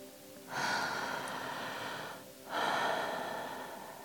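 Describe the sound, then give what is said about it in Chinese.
Two deep breaths taken during a meditation practice, each a long, airy, breathy rush that rises sharply and fades slowly, with a brief pause between them. “所以为什么每次在做引导冥想啊，在做冥想这些等等练习，或是让自己安静的练习，第一件事情就是要先干嘛？就是要先深呼吸呀。”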